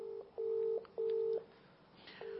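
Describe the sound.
Telephone keypad dialing tones sound as a few faint, steady beeps of equal pitch. Each beep lasts under half a second, and short gaps separate them.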